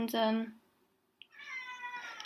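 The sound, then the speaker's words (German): A cat meows, one clear, fairly loud nasal call at the start followed by a softer, longer stretch of harmonic sound; a person's voice is also present. “das ist mal nicht die sonst so rieselige Katze, das ist die andere Katze. Die geht jetzt auch wieder.”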